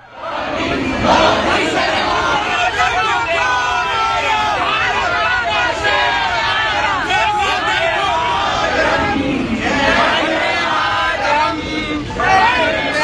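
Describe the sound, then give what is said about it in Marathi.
Members of the Indian community in the Netherlands cheer loudly to welcome the Prime Minister, a dense crowd of shouting and chanting voices. The roar stays loud and unbroken throughout, with excited calls rising above the babble. “नेदरलँड्समधल्या भारतीय समुदायानं त्यांचं जल्लोषात स्वागत”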